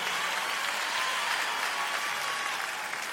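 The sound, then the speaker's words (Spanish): Applause from a crowd: even, sustained clapping at a steady level throughout, with no pauses and no distinct voices. “Fuerte el aplauso, por favor”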